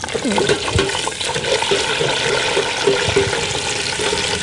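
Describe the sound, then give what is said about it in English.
Edible insects deep frying in oil: a steady, loud sizzling hiss runs throughout while a person talks over it. “Well, this is one of my favourite ways to have them. It's just deep fried with a tiny wee pinch of salt.”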